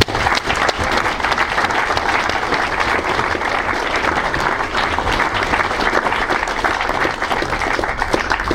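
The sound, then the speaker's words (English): Audience applause welcomes a speaker to the stage: dense, steady clapping from a crowd, loud and continuous for the whole stretch with no break or voices. “So, please put your hands together and welcome to the stage, Danny Dorling.”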